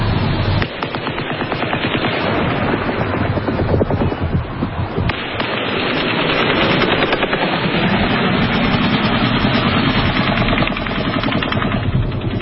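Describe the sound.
Rapid gunfire so loud it overloads the microphone: many shots blur into a dense, harsh, distorted roar that holds at full level with hardly any gaps.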